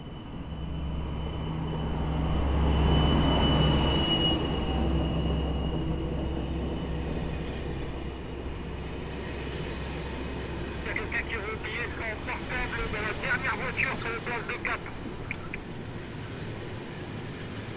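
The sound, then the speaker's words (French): A TER Hauts-de-France regional train from Boulogne-Ville to Paris-Nord pulls into Étaples–Le Touquet station. A low, droning rumble swells and then holds steady, and a cluster of high, squealing tones comes in near the end. “Le TER Hauts-de-France, en provenance de Boulogne-Ville et à destination de Paris-Nord, départ initialement prévu à 13h, entre en gare.”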